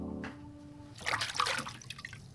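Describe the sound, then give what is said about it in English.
Water sloshing and splashing as baby's clothes are washed by hand, a burst of irregular wet swishes after a brief opening tone, moderately loud and uneven. “Back here, washing the baby's clothes.”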